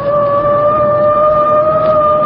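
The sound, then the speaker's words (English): A police car siren sounds as a loud, steady electronic tone held on one pitch, with a fainter higher tone running alongside it and no rise or fall. “Give him the siren. That I will.”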